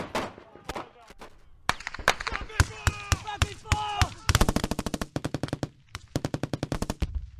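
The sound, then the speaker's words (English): Rapid gunfire from an infantry section ordered to fire across its front. Loud, sharp single shots and short bursts give way to fast, evenly spaced automatic fire with many cracks in quick succession. “Section 200, for the whole of your front, rapid fire!”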